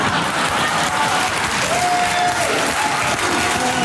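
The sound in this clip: Audience applause in a played clip, a dense and loud wash of clapping from a crowd that stays steady throughout with no break.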